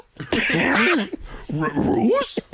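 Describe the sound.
A human voice imitates a dog whimpering and whining in two bursts of wavering, nasal yelps that bend up and down, loud and with no background.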